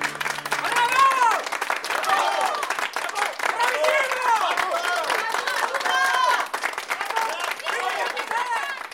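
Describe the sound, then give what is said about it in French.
A theatre audience applauds and cheers a comic actor's performance, with dense clapping and lively shouting voices that keep a steady level throughout. “Par bonheur, le public me réserve un triomphe.”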